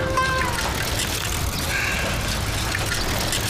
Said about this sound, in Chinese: 我现在洗手